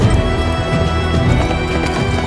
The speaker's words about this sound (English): The horses' hooves kick up pebbles as they journey, the mist shrouding the path ahead of them.